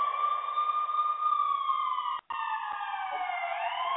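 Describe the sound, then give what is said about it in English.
A siren wails in a steady, loud electronic tone with layered pitches, cutting out briefly partway through before resuming and sliding slightly in pitch near the end. “so let me put the siren on.”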